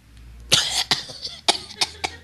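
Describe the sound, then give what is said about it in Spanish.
A run of several harsh, raspy coughs from one person comes in quick, irregular bursts. Each burst is loud and breathy, with short gaps between them and no speech. “Perdóname, me dio tos.”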